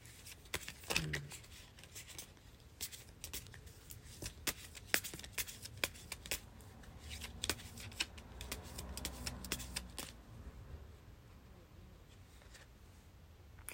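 Fortune cards being shuffled, with many soft, irregular flicks, riffles and rustles that are faint throughout and grow quieter toward the end.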